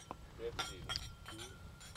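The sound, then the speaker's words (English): Glasses clink together in a toast: a few bright, ringing chimes ring out over people talking. “Okay, so let's cheers. We're on the Lord's team. The winning side. So raise your glass. Cheers to Jesus.”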